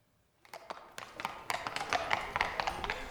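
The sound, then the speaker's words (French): Horses' hooves approach along an avenue, many irregular sharp taps and clops that start abruptly and grow gradually louder and denser over a few seconds. “Comme elle achevait ces mots, on entendit des pas de chevaux dans l'avenue.”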